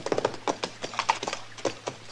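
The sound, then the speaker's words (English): Horse hooves clip-clop on a horse with a loose shoe, a quick, uneven run of many hollow knocking steps at a moderate level. “that horse of yours has got a loose shoe, ain't he”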